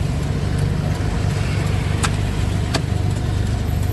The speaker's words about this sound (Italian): siamo in incrocio, ci sono un sacco di macchine.